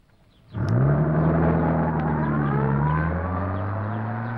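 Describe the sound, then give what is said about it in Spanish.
A car engine bursts into life and pulls away, a loud, steady hum whose tone rises slightly at first, then holds and eases off a little toward the end, with no voices. “Sube al vehículo y se aleja sin mediar palabra.”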